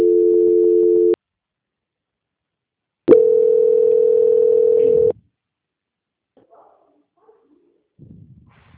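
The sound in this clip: Telephone line tones during a call transfer: two long, steady electronic beeps separated by about two seconds of silence, the second lasting about twice as long as the first, followed by faint scattered noises.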